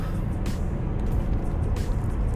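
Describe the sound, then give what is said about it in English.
A car driving, heard from inside the cabin, makes a steady, dense low rumble of engine and road noise that holds even throughout, with no voices. “Sorry, I'm driving.”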